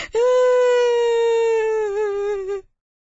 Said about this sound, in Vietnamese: Và nó sợ hãi, òa khóc.